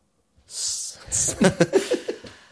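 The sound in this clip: A voice imitates being out of breath: a long rushing breath, then a quick run of short, breathy pants in a steady rhythm.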